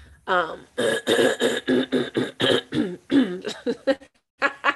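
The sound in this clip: Throat clearing and coughing from someone in mid-conversation: a rapid string of harsh, voiced bursts, loud and irregular, with a short pause before a final burst.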